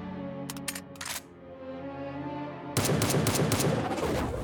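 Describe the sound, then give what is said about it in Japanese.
Gunshots ring out during an animated fight: a few sharp cracks in quick succession, then after a pause a dense, continuous burst of loud noise over a steady tonal drone. “銃を拾って奴を撃て。”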